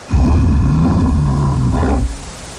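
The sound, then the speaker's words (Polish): Bears roar in the Carpathian wild, a deep, rough growl rising and sustained for about two seconds, loud and alone before cutting off into a low rumble. “A to odgłos niedźwiedzi.”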